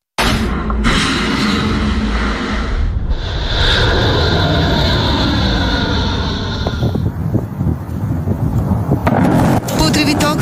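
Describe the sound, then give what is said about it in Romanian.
Aircraft noise at Ben Gurion airport in Israel: a loud, broad roar with a steady high whine through the middle stretch, which then falls away into rougher, uneven rumbling and rattling. “Aceste imagini cu avioane sunt de pe aeroportul Ben Gurion din Israel”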